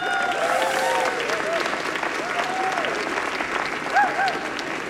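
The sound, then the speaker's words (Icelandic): An audience applauds musicians with dense, steady clapping throughout and cheering voices mixed in. “Eigum við ekki að klappa fyrir þessu stórkostlegu tónlistamennu sem eru hérna með okkur?”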